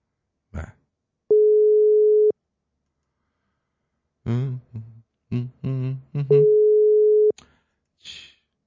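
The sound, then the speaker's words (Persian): A telephone busy signal sounds while a call is being placed, heard as two long, steady, mid-pitched beeps of about a second each, with a voice speaking briefly between them. “بذار با ایشون تماس بگیریم. ببینیم چی میگه.”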